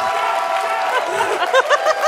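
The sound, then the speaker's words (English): Live audience at the UMass Boston Campus Center cheering and applauding: a steady, broad wash of clapping and crowd noise, with shouting voices standing out toward the end. “they're pumped. We are broadcasting live before a pumped audience here at the Campus Center at UMass Boston.”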